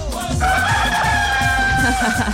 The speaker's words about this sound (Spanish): Ya ve que está cantando bien bueno el gallo.